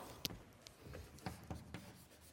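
Faint, scratchy strokes of writing on a board during a maths lecture: a few short, irregularly spaced bursts with no talk.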